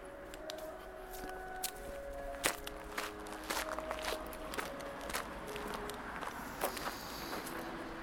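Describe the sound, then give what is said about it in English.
Footsteps of a person walking back through a park toward a sign at its entrance: many soft, irregular steps with light scuffing and rustle, fairly faint against a quiet outdoor background. “So I walk back to the sign at the beginning of the park.”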